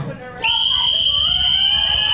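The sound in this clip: A referee's whistle starts a team contest: one loud, steady, high-pitched blast that begins after a short stretch of low background rumble and holds unbroken to the end.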